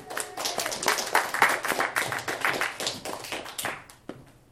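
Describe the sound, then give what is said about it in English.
Audience applause welcoming a guest onto a comedy show stage: many dense, overlapping hand claps form a loud, continuous patter that thins out and fades toward the end. “So make him feel extra welcome. Give it up for Andy Cummins.”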